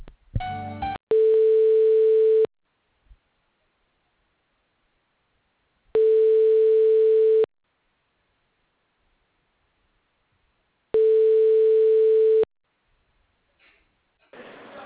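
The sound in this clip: A phone line rings while a call is transferred: three identical steady, mid-pitched ring tones, each about one and a half seconds long, separated by longer silences, with faint rustling at the start and end.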